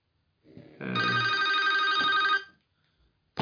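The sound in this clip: A mobile phone rings: one sustained, bright electronic ringtone lasting about a second and a half, fairly loud and heard alone, starting after a soft lead-in and stopping abruptly.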